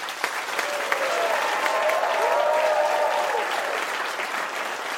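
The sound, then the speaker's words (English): Audience applause welcomes the first contestant to the stage at a live panel show. Steady, dense clapping holds at an even level for the whole clip, with no voices over it. “Would you please welcome to the stage our first contestant”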